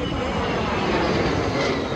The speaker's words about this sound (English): That's the sound of a U.S. jet fighter roaring over the USS George H.W. Bush, the aircraft carrier that was at the heart of this joint